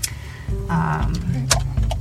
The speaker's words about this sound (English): All right, turning on the car.